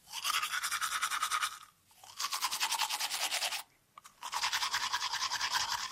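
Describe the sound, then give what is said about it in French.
Vigorous tooth brushing with mint toothpaste: three loud stretches of rapid, rhythmic scrubbing, separated by two short pauses. “Voilà, un brossage énergique des dents.”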